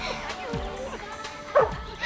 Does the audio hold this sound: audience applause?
no

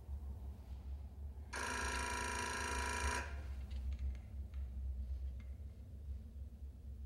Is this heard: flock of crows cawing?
no

